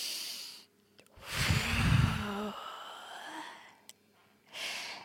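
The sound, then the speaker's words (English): A person takes a deep, breathy inhale and lets it out in a long, airy exhale. Then comes a short pause and another breath begins. No one speaks. “One last breath in.”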